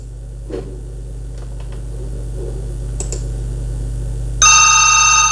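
A telephone rings for a call-in in a radio studio under a steady low hum. A few sparse keyboard-like clicks come first, then a loud, bright, trilling electronic ring cuts in near the end.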